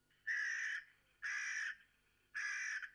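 A crow caws three times, harsh and loud, each call a short raspy burst separated by evenly spaced pauses, with nothing else audible.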